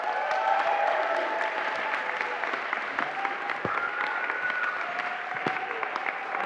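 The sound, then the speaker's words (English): An audience applauding to welcome a speaker, steady continuous clapping of many hands at moderate volume, with a few sharper individual claps standing out, lasting about six seconds. “So can we put our hands together again for Rich and welcome him?”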